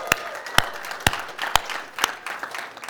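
A church audience claps at its third anniversary service. Sharp claps land in a steady rhythm about twice a second over a softer scatter of hands, then thin out toward the end.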